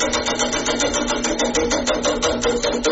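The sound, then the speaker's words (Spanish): A tractor engine runs with a rapid, even, rhythmic chugging that stays loud and steady throughout. “Es un tractor esto. Ahí está. Va parando el tractor,”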